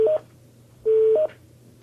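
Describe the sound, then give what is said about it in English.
Telephone keypad DTMF tones as hospital staff dial into a daily safety call: a short burst of dialing tones, a pause, then a longer steady dual tone, clear and alone without voices. “Staff members here are dialing into the daily safety call.”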